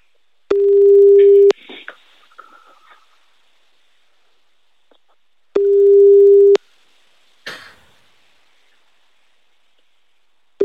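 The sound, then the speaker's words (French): Telephone ringback tone while a call is placed: two long, steady, mid-pitched tones, each about a second, separated by a long pause, with a third just starting at the end. Brief rustling and a cough-like noise fall in the gaps. “Bon, on appelle. On appelle Loïc tout de suite en direct.”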